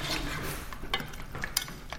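Food being mashed and stirred with soy sauce and pepper, a soft continuous scraping hiss with a few sharper utensil clicks scattered through it.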